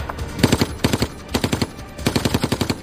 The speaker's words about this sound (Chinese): 广场对面的一名德国机枪手挡住了他们前进的道路。